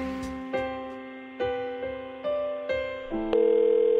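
Telephone line tone heard while a call is being placed, a sustained electronic hum with steady pitched harmonics that jumps to new pitches several times, each change marked by a soft click, running loud to the end.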